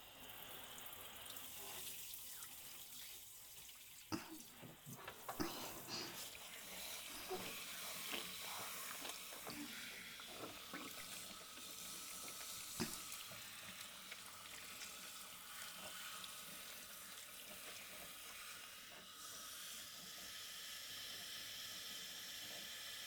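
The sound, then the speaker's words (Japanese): Water runs steadily to rinse off shampoo. It is a quiet, continuous hiss, broken by a few faint splashes and clinks along the way. “では、洗い流します。”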